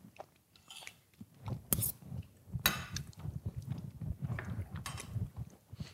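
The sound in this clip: Chewing during a cheese tasting: moist, irregular mouth sounds with soft crunches and smacks that continue steadily throughout, with no talk over them.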